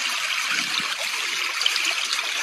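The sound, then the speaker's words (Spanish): Steady rushing water from a river in the Los Gigantes water reserve: a continuous, even hiss with no clear breaks or separate splashes, and no talk. “Este es el sonido del río Yuspe. En la reserva hídrica Los Gigantes. Hermoso río del que toman agua miles de personas.”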